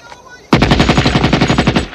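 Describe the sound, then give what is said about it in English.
An assault rifle fired into the ground at a man's feet lets off a sudden, loud automatic burst of many rapid, evenly spaced shots that rattle on without pause to the end. “Cooley jumps as Sean fires into the ground at his feet.”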